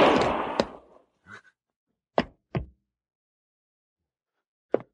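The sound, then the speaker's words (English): A gunshot from a man's own gun in a Western scene: a loud burst that decays over about a second, then a few sharp, short cracks separated by silence, with no voices. “He shot himself.”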